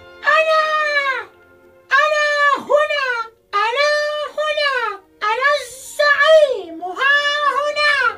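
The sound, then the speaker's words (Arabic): A voice imitating a rooster crowing, as a conceited rooster perched on a fence crows at the top of its voice: several long, loud, wavering cries that swoop up and down in pitch, separated by short pauses. “وفي يوم من الأيام اعتلى الديك المغرور السياج وراح يصيح بأعلى صوته”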